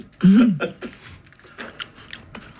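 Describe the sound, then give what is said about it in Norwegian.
Someone bites into crema catalana and eats it, making crisp crunches and soft chewing after a short voiced sound at the start. “Skal jeg smake på den nu med en gang, da? Det synes jeg du skal gjøre.”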